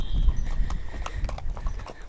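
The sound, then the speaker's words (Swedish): Hoofbeats of an Icelandic horse walking with a rider on a mountain ride: many soft clip-clop thuds in an even walking rhythm over a low rumble. “Du sitter där högt uppe på Prins. Inte jättehögt för han är en islandshäst.”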